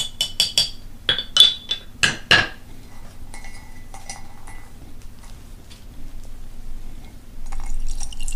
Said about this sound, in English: time for tea. Give it a bit of a stir.